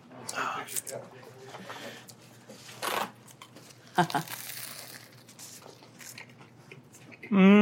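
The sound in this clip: Crunchy bites into an Italian hot dill pickle spear, heard as a few short, crackling bursts followed by wet chewing, with crinkling and voices around them.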